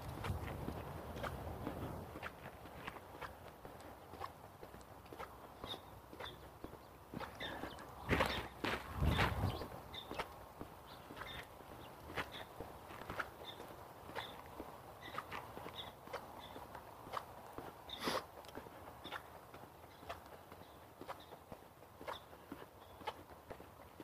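Footsteps walk outdoors along a clear, dry path in a steady, even rhythm of many faint steps. A couple of louder thumps land around the middle.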